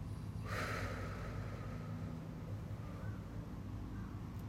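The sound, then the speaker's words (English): One short, breathy exhale after a held breath: a soft burst of air near the start, then quiet, steady low background noise. “Inhale. Hold it. Exhale.”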